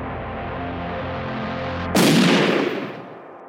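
A gunshot effect in an audio drama: one loud, sharp blast cuts through a steady low drone and then fades away over about a second.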